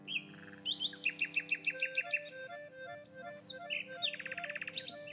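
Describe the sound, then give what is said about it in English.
A nightingale singing in the woods, with rapid runs of bright repeated high notes and trills between varied, clear whistled phrases. “That is the sound of a nightingale. Isn't that beautiful? What a gorgeous song they sing.”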